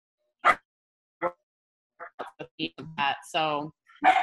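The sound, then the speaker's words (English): A pet dog gives a couple of sharp, separate barks, followed by a person talking in short bursts. “That's my dog, Tony. No, saying hi. I'm on a podcast. Come on, Tony.”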